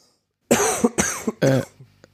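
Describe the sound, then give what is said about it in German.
Three loud, harsh coughs in quick succession, each a short rough burst with a brief catch at its end, followed by a faint trailing sound and then quiet. “Das Husten schneidest du raus, ne?”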